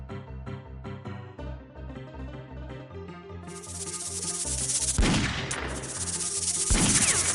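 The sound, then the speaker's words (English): A rattlesnake attacks in a video game. A tonal, music-like passage gives way to a sustained bright hissing rattle, broken by two sharp bursts near the end. “Just does not get old to me. It's a rattlesnake attack.”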